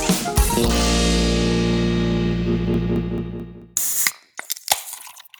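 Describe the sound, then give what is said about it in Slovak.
A Guinness beer is opened and poured: a sharp crack, then a loud, steady fizzing hiss lasting about three seconds, followed by scattered crackling bursts. “to bol nádherný zvuk. Počuli ste to? To bol Guinnessík.”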